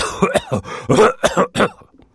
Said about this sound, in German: Vor allem der ungenierte Huster, also der da.